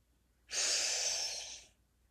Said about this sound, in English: Take another three deep breaths.